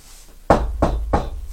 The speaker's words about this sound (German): Dann klopft der Lehrer